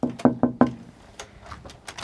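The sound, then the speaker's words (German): Knocking on the window of a closed fish restaurant: four quick, sharp knocks in a fast, even rhythm, followed by fainter scattered sounds. “Erst auf das Klopfen am Fenster hin öffnet Arne Lavrenz sein Fischrestaurant Lukas”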